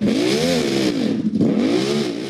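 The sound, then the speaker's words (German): Engine revving hard during a tractor pulling contest while dragging a heavy sled, a loud, sustained droning roar whose pitch swells, sags to a brief dip midway, then climbs and holds again. “Er gibt Gas.”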